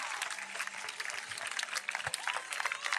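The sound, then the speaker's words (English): Many people clap their hands together in a dense, continuous patter of sharp claps, fairly loud and steady throughout, with no clear talk over it. “Come, everyone. Uh-huh. Clap your hands. Do what? Clap your hands.”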